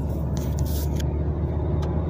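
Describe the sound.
A car is driven home, low on fuel, producing a steady low engine and road rumble with a few brief hissing bursts over it, and no talk.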